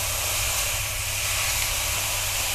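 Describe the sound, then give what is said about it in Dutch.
Food sizzling in a hot wok: a loud, continuous, bright hiss that holds steady throughout, with no pauses or spoken voices. “Ik vind het leuk om alles in de wok te gooien. En dan eh, pas aan de slag te gaan, want dan wordt het lekker warm.”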